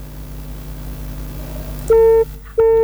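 Telephone busy tone after a call disconnects: two loud, steady electronic beeps at a mid pitch, the second still sounding at the end, over a low background hum.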